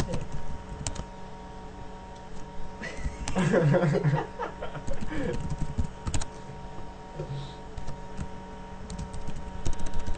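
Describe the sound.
A document is typed on a computer keyboard as a run of quiet, irregular key clicks throughout. A brief chuckling voice breaks in near the middle.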